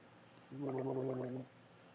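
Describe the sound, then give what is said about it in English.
Gargling of milk in the back of the throat: one wet, bubbling burst of about a second with a throaty buzzing tone, heard alone between quiet stretches. “It's hard to gargle in the back of your throat.”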